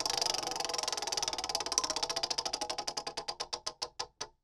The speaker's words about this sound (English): You know, I don't have much experience spinning the wheel. I know you do, so why don't you do it? All right, here it goes.